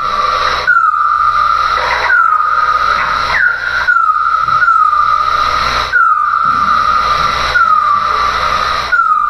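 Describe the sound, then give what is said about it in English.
Bat calls recorded at night near Terry Fox Park on Rue Saint-Jacques with a bat detector come through as a loud, regular series of many chirps, each sweeping quickly downward and then holding a steady tone. “This is the sound of a bat recorded near Terry Fox Park along Rue Saint-Jacques. This sound was gathered using wildlife acoustic technology.”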